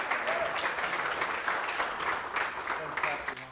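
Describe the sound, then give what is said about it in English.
An audience applauds to welcome guests onto a platform, with steady, sustained clapping from a crowd that continues throughout. “Do me a favor and let's just welcome them to the platform.”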